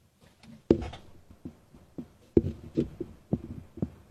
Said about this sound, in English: Is that TMJ? I can make mine click.